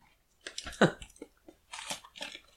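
Someone bites into a thick cookie and chews it, producing a few faint, crisp crunches in short bursts with quiet gaps between them.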